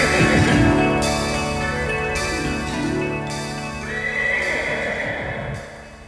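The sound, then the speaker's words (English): A horse neighing in a few loud, shrill whinnies that rise and fall in wavering pitch, one after another with no voices. “I'm Pegasus the flying horse.”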